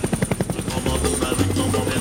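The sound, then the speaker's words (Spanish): A circling helicopter gives a loud, rapid thump of rotor blades in rhythmic pulses, then settles into a steadier, heavy low engine drone. “Cuando el helicóptero está rondando,”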